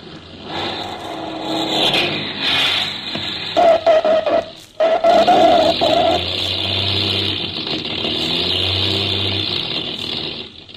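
Steady engine drone from a small plane coming in to land, a continuous mid-pitched hum with a faint whine that rises partway through, holding at a level loudness to the end with no cutoff.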